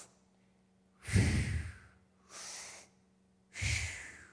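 A person breathes audibly in and out, demonstrating deep breaths: three distinct airy breaths, the first and last louder and fuller, the middle one softer, separated by short silences.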